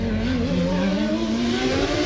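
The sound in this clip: Formula One race cars at the Australian Grand Prix in Adelaide give a loud, sustained engine whine with strong harmonic overtones, holding a nearly steady pitch throughout.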